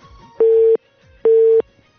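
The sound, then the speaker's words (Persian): Two identical beeps of a telephone line tone after a call is cut off. Each is a steady mid-pitched burst of about a third of a second, separated by a short gap, with no talk. “تماس تمنا جان قطع شد.”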